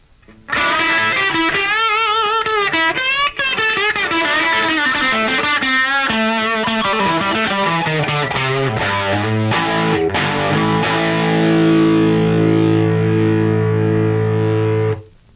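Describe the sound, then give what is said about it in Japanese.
An electric guitar played on its lead pickup gives a hard, bright, distorted tone. A run of notes slides steadily downward and then settles into a loud sustained chord that rings on before cutting off. “で次に、リードピックアップの方を使いますと今度すごい硬い音になる。”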